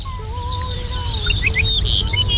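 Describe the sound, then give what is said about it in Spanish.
Dupont's lark (ricotí) singing: thin, clear whistled notes with higher, quick chirping phrases repeating over a steady low rumble. “ricotí, se llama como tal porque es una emulación de la onomatopeya que produce en el canto, el titutí, ese que realiza en varios momentos. Pues, profesor Juan, mira, está a ver. Está cantando.”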